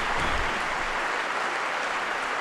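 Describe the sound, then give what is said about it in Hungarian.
Pilgrims in the Paul VI audience hall applaud Pope Francis after his catechesis: a dense, loud, unbroken roar of clapping that holds level throughout. “Tapsviharral fogadják a 6. pálteremben jelenlevő zarándokok Ferenc pápának a mai katekézisét, mai tanítását”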